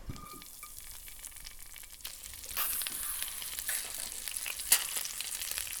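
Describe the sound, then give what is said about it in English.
Frozen mealworms frying in oil with a little salt in a pan: a continuous soft sizzle and crackle that gets somewhat busier partway through, with a few sharper crackles standing out. “Okay, they're curling in the pan as they fry.”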